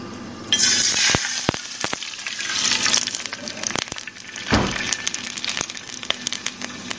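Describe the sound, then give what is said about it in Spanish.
Flour-coated chicken pieces fry in hot oil in a pan, giving a steady crackling sizzle over many sharp pops and a few metallic clinks. “Dejamos que comience a calentar el aceite y pasamos los pedazos de pollo de parte en parte por la mezcla de harina y lo introducimos al sartén.”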